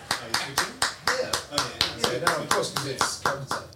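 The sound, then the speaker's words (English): Clapping to welcome a guest: many sharp claps in an even, steady rhythm of about four per second, with people talking over them. “Just maybe give him a clap. Give him a clap.”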